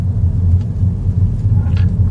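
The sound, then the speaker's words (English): A three-cylinder BMW-engined Mini with an automatic gearbox pulls away, giving a low, steady engine rumble with little change in pitch throughout. “Automatic gearbox in this car. Again, no manual option available. You flick it down into drive, and off we go.”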